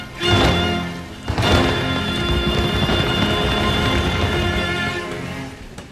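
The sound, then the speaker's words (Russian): A steam locomotive rushing past: a loud, dense roar of rumbling noise with a steady tonal whine. Two sharp bursts come at the start, then it settles into a continuous rush that eases off toward the end. “Угольная пыль хрустнула под каблуком, и в тот же миг одним жадным скоком нагрянул паровоз.”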